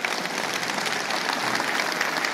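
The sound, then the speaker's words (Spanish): A church audience applauds, a dense, sustained wash of clapping that holds at an even level from start to finish. “Póngase de pie. Ya se acabó este suplicio. Si Dios le habló, dele un aplauso al Señor.”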